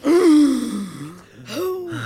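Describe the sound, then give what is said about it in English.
A long, loud, exaggerated deep breath taken on cue during a guided meditation, voiced and moan-like, rising in two drawn-out swells with a brief dip between them. “Take a long, slow, deep breath as loud as you can.”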